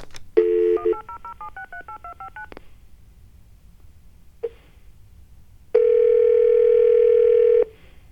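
Telephone keypad tones from dialing a toll-free number: a quick run of short beeps that step up and down in pitch, one brief tone after a pause, then a loud, steady tone that holds for about two seconds.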